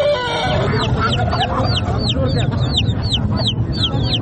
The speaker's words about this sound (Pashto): د کورنۍ چرګانو، کلیوالو او وحشي مرغانو دا ژغونه په ترینکوټ ښار کې له جمعه بازار یا ګنج څخه پورته کیږي